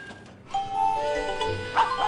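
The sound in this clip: A dog-bark notification sound plays as a message alert from a communication app. A couple of short, tonal bark-like yaps come in quick succession, moderately loud with no talk over them.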